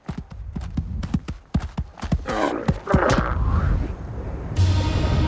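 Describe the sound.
Horses' hooves clip-clop rapidly in a steady galloping rhythm as riders push on, many sharp beats over the first three seconds, then a louder, continuous rushing noise takes over.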